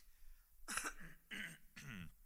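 Throat clearing with coughing during a church service: three quick, rasping bursts, fairly faint, separated by short pauses.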